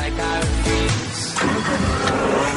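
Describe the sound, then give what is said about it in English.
A car engine roars and revs loudly as the car speeds off in the Guignols puppet video, a continuous mid-pitched mechanical growl that holds steady for the whole stretch. “which shows him urinating in the gas tank of his own car, then speeding off at 200 miles an hour.”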